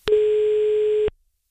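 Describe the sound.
Ringing tone of an outgoing telephone call: a single steady, mid-pitched beep lasts about one second, sounds loud and alone, and stops abruptly into silence.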